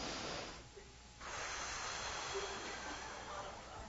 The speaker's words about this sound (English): deep inhale through your nose. Blow.